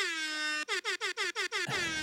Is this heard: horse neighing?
no